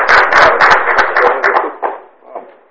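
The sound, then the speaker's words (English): A small group applauds at a county award presentation. The claps come in a brisk burst, then thin out and fade away within a few seconds. “You can applaud yourself.”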